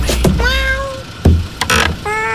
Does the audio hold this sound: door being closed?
no